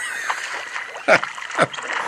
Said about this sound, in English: And this is two male water hens. And unfortunately, they're swearing at each other.